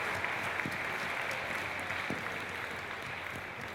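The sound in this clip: Applause for a guest who sang an intro song: dense, steady clapping that fills the whole stretch at an even loudness, with no pause and no clear talk over it.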